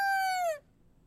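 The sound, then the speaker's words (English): A rooster crows once in a short, bright, strongly harmonic call that sags slightly in pitch at its end, then gives way to near silence. “That was the sound. Oh, that's a rooster.”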